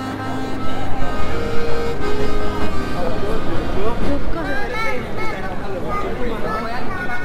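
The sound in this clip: Town square ambience on the small Piazza della Repubblica in Castelfidardo, Italy: a steady murmur of many voices and chatter mixed with the rumble of a car, fairly loud and continuous.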